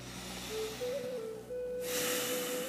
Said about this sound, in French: Pour ça, on commence par prendre trois respirations profondes.